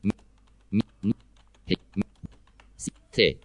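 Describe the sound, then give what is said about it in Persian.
Keystrokes on a computer keyboard while typing in Notepad: a string of sharp, separate clicks at an irregular, moderately quick pace, fairly faint, with quiet gaps between them. “یه ذره سریع نوشتم”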